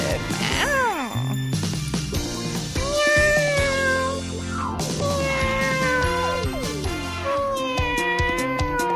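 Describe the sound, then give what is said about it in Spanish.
A person imitates a cat's meow, producing many high, wavering meows in quick succession with rising and falling pitch, and a few sharp knocks scattered between them. “Ok, dejaré de practicar mis maullidos al aire.”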